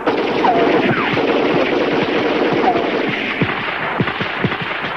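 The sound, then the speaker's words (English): Gunfire on a foggy, snowy battlefield: many sharp reports and cracks over a dense, continuous roar of combat, with shots landing unevenly throughout and growing more distinct toward the end. “Flashes of gunfire pierce the fog.”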